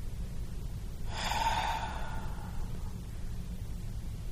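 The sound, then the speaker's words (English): One ragged breath, a rough, uneven airy exhale that lasts about a second and a half and then fades, faint and alone. “That was a ragged breath.”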